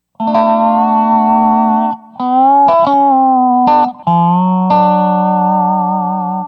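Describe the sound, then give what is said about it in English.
Guitar lick played through a four-knob resonator-box effect set for an onstage dobro tone, sounding like an amplified dobro: loud, sustained twangy notes with slight bends, in three phrases split by two brief gaps. “So here's the same lick with the resonator box engaged.”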